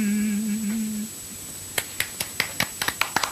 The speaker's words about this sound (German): Danke für euren Applaus, liebe Freunde.